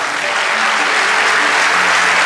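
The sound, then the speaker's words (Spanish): Church audience applauding during a sermon, a loud, dense and steady wash of many hands clapping that holds at an even level throughout, with no voices. “Vamos, dale ese aplauso”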